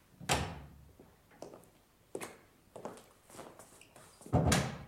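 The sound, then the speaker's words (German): Knocks on a door of a consultation room in a courthouse: several sharp, irregularly spaced thuds, the first and last louder than those between, with no voices. “Es klopft. Herein.”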